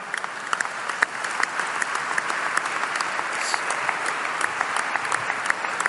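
Lukewarm applause from an audience at a trade union pensioners' meeting: many moderate, even claps that run steadily through the whole stretch, neither swelling nor dying away.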